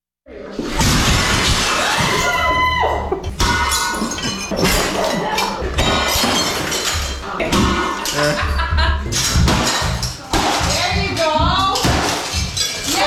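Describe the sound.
Objects smashed in a destruction therapy rage room: many loud, irregular crashes, shattering glass and clinking shards in quick succession, with people briefly talking between the impacts.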